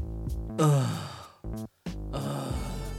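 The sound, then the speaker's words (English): A person groaning as if at a bad joke: a drawn-out voiced groan that slides down in pitch, followed by shorter and then longer groaning vocal sounds, with no words spoken. “It's not called a laugh, it's called a groan. To groan.”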